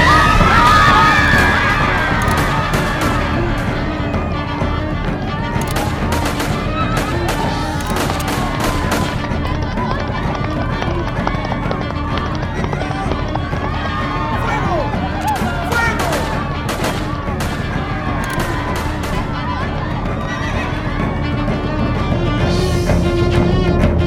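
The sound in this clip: Gunfire as police fire on a crowd of protesting women workers in a radio drama: many shots crackle amid continuous loud crowd shouting and screaming that persists throughout.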